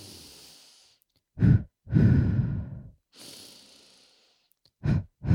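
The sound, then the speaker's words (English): Running breath used to prevent a side stitch: one inhale through the nose, then two exhales through the mouth. A few loud, airy breaths come in an uneven rhythm with short quiet gaps, and no talk is heard. “I breathe in once through my nose and out twice through my mouth. So it sounds like...”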